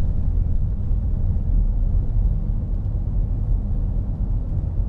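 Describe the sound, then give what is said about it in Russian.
Steady low rumble inside a car cabin while driving slowly, about 25 miles per hour, over a rough road surface. The road and engine noise is even and continuous throughout, with no talking. “В салоне сейчас не так шумно, потому что я медленно еду, сейчас 25 миль. Вот, а то как разгонишь, тут становится шумно. Дорога шершавая.”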